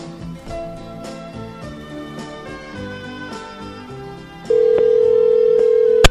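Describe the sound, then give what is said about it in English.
A steady telephone tone sounds as a call is placed, entering partway through over background music and holding one loud, level pitch to the end. “In the interests of talking to Zach as quickly as possible, let me dial him again right now.”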